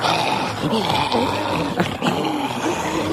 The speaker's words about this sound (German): Ja, so klingen die Zombies